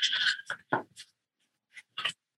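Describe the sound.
Crinkly rustling of a much-used, floppy paper sheet being folded, several short dry bursts separated by quiet gaps.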